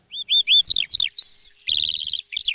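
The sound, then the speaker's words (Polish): Birdsong in a forest in spring: a run of clear, high whistled chirps and short slurred notes. A longer buzzy trill follows, and then one more bright call, loud and alone. “Śpiew ptaków cisza. Samiczki wysiadują jajeczka, a panowie wyśpiewują, ale jak pięknie. Dzięcioła słychać.”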